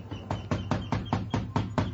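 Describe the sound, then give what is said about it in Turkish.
Insistent knocking on a door comes as a rapid, evenly spaced series of sharp raps, fairly loud and continuing for the whole two seconds with no talk. “Bak, bak kapıyı nasıl ısrarla çalıyorlar.”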